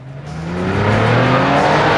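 A yellow Porsche's engine roars as the car pulls out of a parking space and tears off, a loud, steady growl that builds quickly and climbs slightly in pitch.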